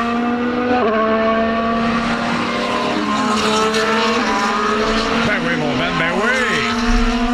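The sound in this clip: Racing cars roar around a race circuit. Engine whines are layered over one another, and several of them sweep sharply up and down in pitch as cars pass, over a constant loud mechanical drone.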